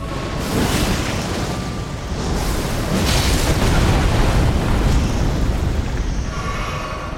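A fire potion explodes in a video game with a loud, sustained, rumbling roar. It stays broad and steady for several seconds, swells in the middle, then eases slightly.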